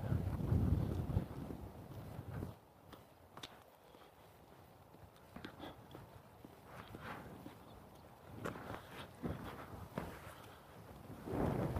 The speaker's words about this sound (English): The wind's strong enough, it's folding all the grass over.